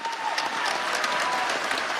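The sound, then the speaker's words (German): A full hall applauds a veterans' theatre performance in a standing ovation, a dense, loud, continuous wash of clapping that holds steady throughout with no breaks. “Der Applaus für das Veteranentheater dauert bis zu 15 Minuten. Der ganze Saal applaudiert im Stehen.”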